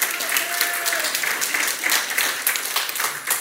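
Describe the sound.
Audience applause welcoming a guest speaker: dense, steady clapping from many hands that holds at an even level for about three seconds without a clear break.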